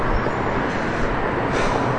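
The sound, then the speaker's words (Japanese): Street traffic in Times Square, New York, where the passing cars are mostly taxis: a steady, broad rumble and hiss of moving vehicles with no distinct horns or voices. “街行く車はタクシーばっかり。”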